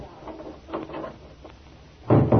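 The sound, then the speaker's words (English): A single low, solid thud of a door being shut lands near the end, after a few faint, soft knocks and rustles in an otherwise quiet stretch. “Shut the door.”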